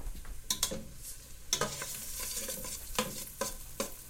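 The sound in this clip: Faint stirring and utensil clinks sound over a low sizzle as codhead stew cooks in a kitchen. Several sharp clinks land at irregular intervals, with no voices.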